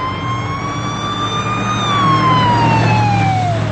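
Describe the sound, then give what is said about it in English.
An ambulance siren wails as the vehicle races to a home, a loud continuous tone that slowly climbs and then falls in pitch over a low engine rumble. “An ambulance races to the home.”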